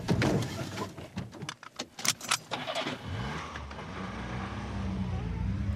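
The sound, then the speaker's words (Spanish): A car starting and driving off: a few clicks and rattles come first, then the engine turns over and settles into a steady, building hum. “Arranca, que estoy deseando llegar.”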